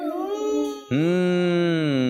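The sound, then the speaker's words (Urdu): A voice imitating a trapped lion roaring as part of a story told in Urdu: two sustained, tonal, howling vocal cries, the second louder and held steadily to the end. “اب شیر آواز نکالے, شیر بھاگنے کی کوشش کرے, جی ہاں کیسے آواز نکالے”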